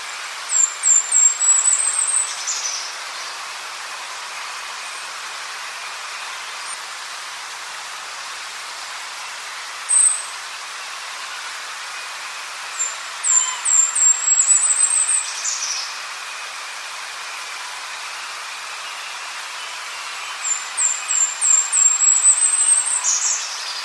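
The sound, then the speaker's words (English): Golden-crowned kinglet song: three bursts of very high, thin, rapid notes, with one brief lone chirp between them, set against a steady soft hiss. “So once again, that was the Golden Crown Kinglet.”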